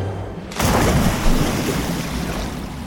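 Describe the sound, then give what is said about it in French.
A splash as people, after a wild run to a cliff edge, tip over the safety barrier and are catapulted into the water: a sudden loud burst of noise followed by steady rushing, churning water. “Ils terminèrent leur course folle au bord de la falaise, basculèrent par-dessus la barrière de sécurité et furent catapultés dans l'eau.”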